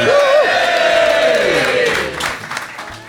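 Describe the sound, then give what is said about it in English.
A live pub audience at the Half Moon in Putney cheers and claps, a loud crowd roar with a drawn-out whoop over it that eases off toward the end. “welcome to another show in front of a beautiful live audience here at the Half Moon Putney”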